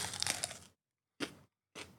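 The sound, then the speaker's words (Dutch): Someone takes a bite of food, a crunchy crackling burst followed by two shorter crunches with silence between them. “Ik neem een hap.”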